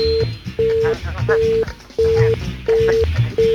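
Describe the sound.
A telephone busy tone after a caller's line cuts off, six even, mid-pitched beeps repeating in a steady rhythm while a voice talks underneath.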